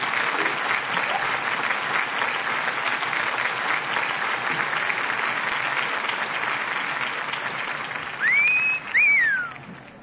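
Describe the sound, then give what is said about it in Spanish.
Loud applause from a crowd at a May Day workers' rally, a dense steady wash of clapping that holds for about eight seconds before giving way to whistles or cheers near the end. “un fuerte aplauso para recibirlo, por favor.”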